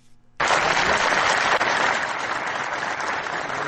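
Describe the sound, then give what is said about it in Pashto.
Applause from a large gathering in Farah after the acting governor's speech on polio vaccination. Dense, steady clapping begins abruptly after a faint lead-in and carries on at an even level with no voices. “دلته یو لوی غونډه رابلل شوی او د فراد سرپرست والی محمد آصف ننګ هغه خبرې په چکچکو بدرګه شوې”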